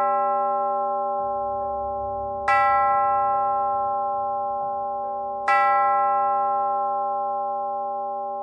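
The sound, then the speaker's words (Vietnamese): A distant clock tower bell tolls at midnight, with metallic ringing and long, slowly fading harmonic hum; two bright strikes stand out, each renewing the sustained tone that decays between them. “tháp đồng hồ nơi xa xa chợt vang lên hồi chuông”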